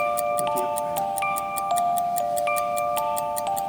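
A clock ticks steadily, with many evenly spaced sharp ticks over a faint, sustained ringing tone.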